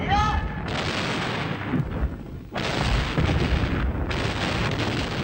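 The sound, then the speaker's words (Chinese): Artillery firing an extended barrage during a battle: heavy, continuous roaring and rumbling blasts, loud throughout, with a brief dip partway before the barrage surges again. “刚才炮兵延伸射击了。”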